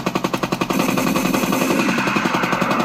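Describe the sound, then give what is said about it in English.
AK-47 rifle fire in a video game: rapid automatic shots, at first a quick run of distinct cracks, then denser, continuous fire. “Might have to get a little AK-47 sound bar in there. You get me? There we go!”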